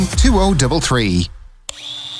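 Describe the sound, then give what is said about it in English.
A power tool, a Milwaukee angle grinder or Makita multi-tool, starts after a man's voice, opening with a sharp click and settling into a steady high-pitched whine. “Ooh, Milwaukee Angle Grinder. Makita Multi-Tool. Know your power tools?”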